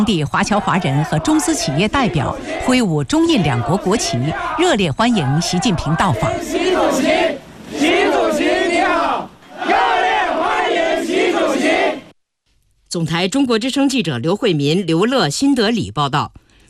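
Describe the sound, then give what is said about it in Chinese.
Overseas Chinese residents and Chinese company representatives in New Delhi chant in unison to welcome Xi Jinping. Loud, repeated rhythmic phrases come in bursts separated by short pauses. “当地华侨华人和中资企业代表挥舞中印两国国旗，热烈欢迎习近平到访。习主席，习主席你好，热烈欢迎习主席。”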